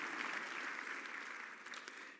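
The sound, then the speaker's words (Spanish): An audience applauds during a Spanish-language church service. The sound is a quiet, dense wash of many hands clapping together. It stays even, then thins slightly and tapers off at the very end. “Un aplauso para Él, porque Él es nuestro lugar.”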